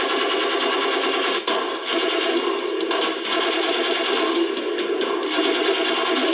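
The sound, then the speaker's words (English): A large machine gun fires one long, sustained burst, the rapid shots blurring into a dense, continuous rattle. The burst runs for more than six seconds with only a couple of brief dips. “Well, you know, I don't think myself I need a machine gun that big. What is that? How many rounds is that?”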